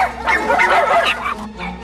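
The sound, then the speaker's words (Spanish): Caged dogs bark together as a Saint Bernard's cage is opened and a small mutt is set loose. Quick overlapping barks and high yips run without a break, with a softer whimpering tone near the end. “Abre la jaula del San Bernardo y el cachorro sale. El resto de perros comienzan a ladrar.”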